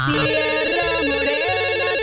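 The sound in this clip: A telephone ringing with an electronic, warbling ring that repeats steadily and loudly on its own, over a sustained lower tone pattern.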